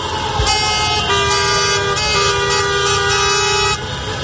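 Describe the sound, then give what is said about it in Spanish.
Nearly a thousand taxis honk their horns during a slow protest drive through central Barcelona. Overlapping toots and sustained blasts ring out continuously, loud and layered over a steady rumble of engines and traffic. “Casi 1 millar de taxis han teñido de amarillo y negro el centro de Barcelona esta mañana. Lo escuchamos.”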